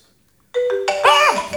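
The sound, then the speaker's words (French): A phone ringtone starts after a brief silence, with a few bright tonal notes that build into a fuller, louder chime. “Ah, ça sonne. Ah, vous m'avez... Excusez-moi, je décroche parce que moi, c'est important.”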